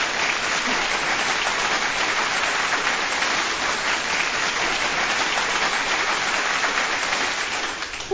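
Sustained applause, dense and even clapping from many hands, holds a steady level throughout and eases slightly at the very end.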